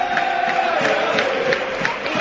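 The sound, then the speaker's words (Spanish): Football crowd roaring at El Sadar stadium during an Osasuna match as a corner kick is taken, a dense, steady wall of many voices at fairly even loudness. “Ahora el público sí que tira para adelante, ¿eh? Este sí que es el Reino de Navarra, este sí que es el Sadar que todos conocemos.”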